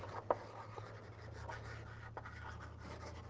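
Writing strokes on a board during a lecture: a sharp tap near the start, then faint, intermittent scratching and rubbing over a steady low hum.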